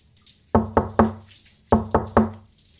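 Knocking on a door: two bursts of three sharp raps each, separated by a short pause, with no voices.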